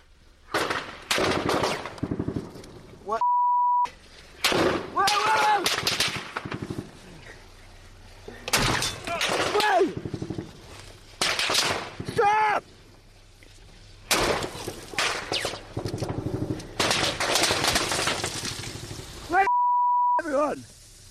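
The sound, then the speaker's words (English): Rapid machine-gun fire from an ambush rattles in many loud bursts separated by short gaps, with voices talking over it and two brief steady beep tones. “Somehow we have to get out of this, but the rounds keep coming. It's a professional ambush. The bullets just don't miss.”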